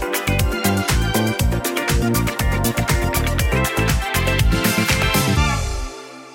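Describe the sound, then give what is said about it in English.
A nu-disco beat produced in Ableton at 120 BPM, with a steady four-on-the-floor kick driving dense layered synths and percussion. It plays loud and continuous, then cuts off near the end, leaving a short ringing tail. “by the end, you'll have a new disco beat that sounds something like this.”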